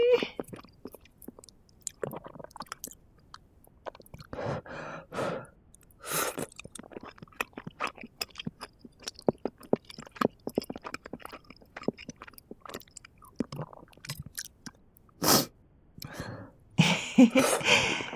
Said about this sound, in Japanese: 刻んだトッポギも韓国料理食べてるって感じだよな。お餅の甘みが辛みを中和してくれる。